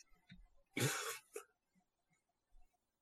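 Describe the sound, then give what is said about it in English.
A person sniffs the air, one short, loud, breathy burst followed by a smaller second sniff, with quiet pauses around them. “He sniffs the air.”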